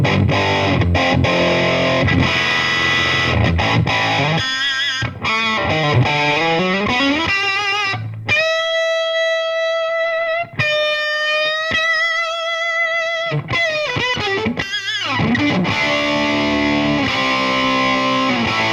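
Electric guitar through a small Marshall tube combo amp pushed hard, loud and distorted, with chords and bent notes, a long sustained note in the middle, then more chords.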